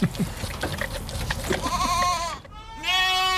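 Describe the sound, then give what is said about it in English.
Two hungry baby goats bleat at feeding time: after a stretch of soft rustling, a long quavering bleat rises, then a brief pause, then a higher, sustained, wavering cry, both loud and clear. “It's the sound of two very hungry baby goats at feeding time.”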